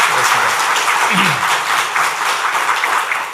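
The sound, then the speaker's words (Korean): Loud applause from a church audience welcoming a new children's ministry worker: a dense, continuous patter of many hands that holds level throughout, with faint voices briefly audible early on. “김지아 전도사님 오셨는데 힘내시라고 큰 박수로 환영하겠습니다. 환영합니다.”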